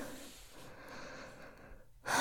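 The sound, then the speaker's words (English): Heavy breathing as someone catches their breath: soft, rasping breaths run steadily throughout, then a sudden louder breathy burst comes at the very end. “Catch your breath. Breathe for me.”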